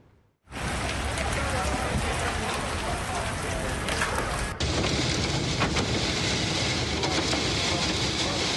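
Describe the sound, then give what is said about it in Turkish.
A violent, damaging windstorm with heavy rain, caught on a school's security camera in Gaziantep: after a brief quiet moment a dense, loud, steady roar of rain and wind begins abruptly and continues without a break. “büyük hasara yol açan fırtınanın şiddetini gösteren yeni görüntüler var.”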